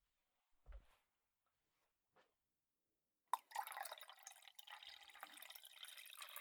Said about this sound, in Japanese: お湯を注ぐ音。これは気持ちいい音だね。耳に優しくて。